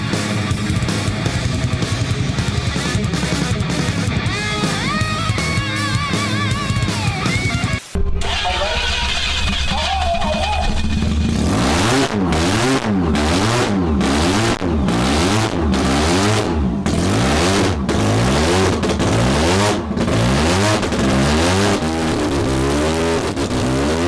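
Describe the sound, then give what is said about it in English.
A supercharged 13B rotary-engine car revs hard while smashing tyres: a loud, raspy engine roars steadily, cuts out briefly, then swings up and down in pitch through many rapid rev cycles. “we're here to smash tyres today and just to prove everybody wrong that 13B superchargers can smash”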